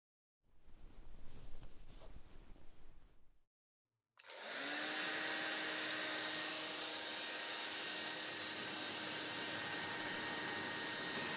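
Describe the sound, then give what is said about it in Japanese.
Hair dryer blowing on someone's wet hair. A few seconds of softer rustling come first, then a short silence, then the dryer switches on with a loud, steady whooshing roar and a constant hum that lasts to the end. “ほら、おいで。髪の毛乾かしてあげる。そのままじゃシーツまで濡れちゃうでしょ。”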